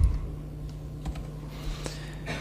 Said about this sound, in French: Si je cherche des choses sur les justes, je vais donc taper writers,